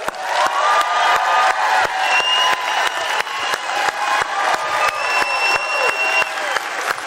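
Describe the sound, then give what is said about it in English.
A live audience gives a rowdy welcome to a guest's entrance, loud sustained applause with a steady rhythmic clapping beat, with cheering, whoops and a few whistles over the crowd. “So let's show him how Mountain does it. Big old rowdy Mountain raucous welcome for our friend Brian Head Welch.”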